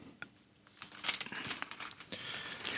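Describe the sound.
Thin Bible pages rustle and flip while someone searches for Matthew chapter 13. Many soft papery crinkles and quick turns follow one another, with no talk.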